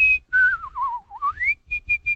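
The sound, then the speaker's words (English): Artistic whistling of a song melody: a clear, pure whistled line that slides down in wavering, ornamented turns, glides back up, then ends with a few short repeated high notes, heard alone. “There was even a school in L.A. at the time, Miss Woodward's School of Artistic Whistling. She had exercises, kind of a, and she would do the melody of a song and just add a little.”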